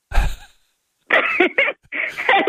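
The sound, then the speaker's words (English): A single short, breathy snort bursts out at the start, then after a pause come a few voiced vocal bursts, loud and close. “Oh, my God, you made me snort.”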